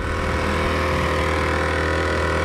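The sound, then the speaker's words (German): A car engine drones steadily as the vehicle travels along a small, unpaved forest track left in poor condition after the rainy season. The low, even rumble holds throughout with no breaks and no voices. “über eine kleine, unbefestigte Piste ruckelt das Auto durch den Wald”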